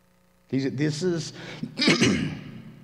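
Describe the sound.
A man clears his throat, strained from hard laughing the night before, in a few rough, voiced bursts with short gaps between them.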